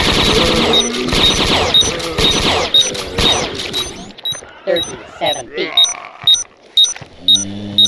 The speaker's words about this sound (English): Automatic bolt gun.